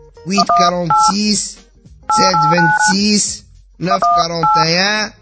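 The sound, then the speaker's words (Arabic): Telephone keypad tones as a number is dialed, three clusters of short beeping tones separated by brief pauses, loud and mixed with voice-like sounds. “امشي نزل تليفون وكلم على الشاب يشوف معاه ما هو خبير في الحكايات هذه”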